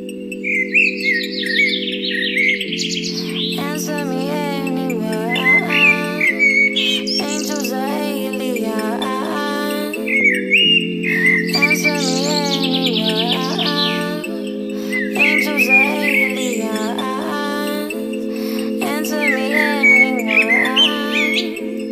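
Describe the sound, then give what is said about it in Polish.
Birds chirp and trill repeatedly in bright, high bursts over sustained low musical tones that shift in pitch every few seconds, repeating in a steady cycle. “Posłuchać głosu ptaków, ale nie zabijać je.”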